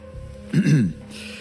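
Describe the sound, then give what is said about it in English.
A man clears his throat once at a bar, a short rough rasping burst that stands out loudly against a quiet background. “The man smiled and cleared his throat.”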